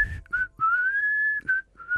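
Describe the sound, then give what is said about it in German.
A person whistles a short tune in a sauna: a few clipped notes, then a long, clear, sustained tone that rises gently, followed by brief notes at the end. It is loud, with no talk over it. “Ach nö, ein Pfeifer. Ach nö, das braucht sich nicht in Sauna rein.”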